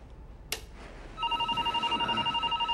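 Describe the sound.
A telephone ringing: after a sharp click, a loud, rapidly pulsing electronic trill starts and repeats steadily to the end over a quiet background.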